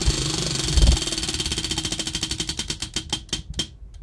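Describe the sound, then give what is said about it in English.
A prize wheel spins, its pointer ticking rapidly against the pegs at first, then the clicks spread farther apart as the wheel slows, ending in a few last sharp ticks before stopping. “I'm going to spin the wheel.”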